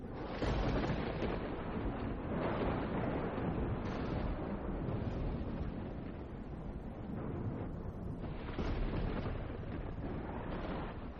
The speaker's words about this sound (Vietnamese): Một tia sét rạch ngang trời, đánh thẳng xuống gốc gạo.